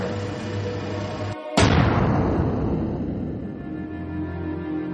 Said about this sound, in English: That's a gun.